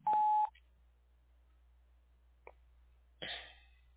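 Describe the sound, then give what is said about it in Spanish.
A single voicemail beep, a short steady tone that sounds loud at the very start and marks the start of recording, followed by near silence with a couple of faint soft clicks. “Cuando escuche el tono, por favor, grabe su mensaje.”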